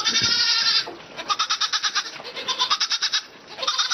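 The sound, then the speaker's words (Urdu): A goat bleats without pause: loud, strained cries that break into a rapid quavering pulse through the middle, then swell into another drawn-out bleat at the end, with no other sound. “Gadkari دار میمے کا نرنتر سور آ کر کان کے پردے کو چھت وکشت کرنے لگا۔”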